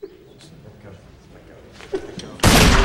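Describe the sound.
A gunshot from a gun fired accidentally: after a stretch of faint low sounds and a small knock, a sudden loud blast bursts in near the end and stays loud until the cut-off.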